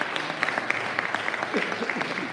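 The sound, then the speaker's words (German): Applause from a church service audience: dense, steady clapping of many hands at an even, moderate loudness, with no break for its whole length. “Gib dir nochmal einen Applaus.”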